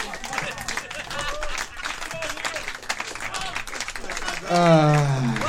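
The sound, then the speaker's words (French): Audience applause, a dense, steady patter of clapping that runs the whole clip and swells louder near the end, with voices sounding over it. “Encouragez-les pas trop, là, quand même. Ils ont raison d'applaudir en même temps”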